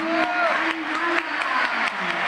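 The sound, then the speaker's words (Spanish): Audience applause welcoming a football world champion player, a steady wash of clapping with a man's voice talking over it. “Ángel Correa, otro campeón del mundo. Aplausos.”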